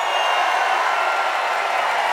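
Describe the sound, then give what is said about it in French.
Crowd at a live show in Marseille cheering wildly, a dense, steady roar of massed voices and noise that fills the whole stretch without a break. “Ah ouais, mais le public est en folie, là. Est-ce qu'on peut dire qu'il y a de l'ambiance?”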